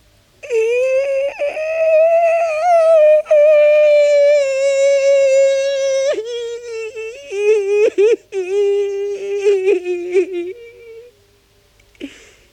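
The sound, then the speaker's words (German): A man's long wailing cry, a sustained voiced tone held for several seconds, then dropping lower into a wavering, broken sob with short catches of breath before trailing off. “Wasser läuft aus den Augen. Der Atem wird schneller. Aus dem Mund kommt ihm ein langer Klageweibton.”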